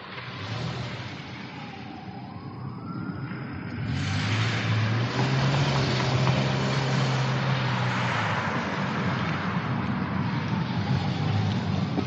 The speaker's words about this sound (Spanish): Ella da marcha atrás y se aleja.